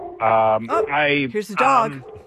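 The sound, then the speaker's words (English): A dog vocalising with a few whining, yelping cries, each a strained, tonal burst with no talk over them. “there's a dog.”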